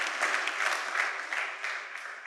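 Applause from a church audience during a French-language worship service, a dense steady clatter of many hands clapping throughout, with no voices standing out.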